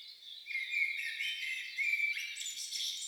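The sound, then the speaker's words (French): A small bird sings in continuous high, bright chirps and trilling phrases that run unbroken throughout, with no voices present. “Un petit oiseau chante.”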